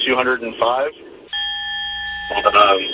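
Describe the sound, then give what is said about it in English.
A bell rings as a single sustained, clear tone lasting about a second, between stretches of a man talking. “like to hear the bell.”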